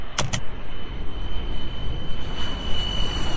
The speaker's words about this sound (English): SK-737, you are cleared to take off using the runway in front of you.